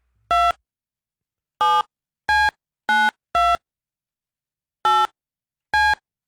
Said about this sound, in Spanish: Vamos a marcarte a ver si me contestas, ¿ok? Vamos a ver. Que suene.